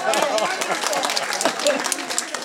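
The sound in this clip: Audience applause, dense rapid clapping that runs throughout at a fairly even level, with voices mixed in.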